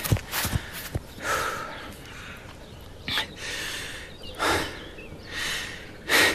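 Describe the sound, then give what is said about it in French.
Heavy panting from a person catching their breath after running into a forest, with a few loud, breathy gasps at a roughly steady pace and no speech. “Enfin, je gagne la forêt je peux m'arrêter un instant pour souffler.”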